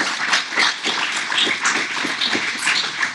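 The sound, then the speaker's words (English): Applause from a talk show's audience: dense, steady clapping with scattered sharper claps, continuing throughout without a break. “Give yourself a big hand. Give Clyde a big hand here.”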